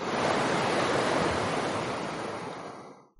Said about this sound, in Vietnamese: Bên trong hồ lô, một hồi âm thanh như là tiếng nước sông lớn chảy nhanh vang lên.